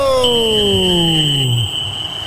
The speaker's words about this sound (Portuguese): E o Bahia vai pro oitavo jogo, pegou a bola, apita o árbitro!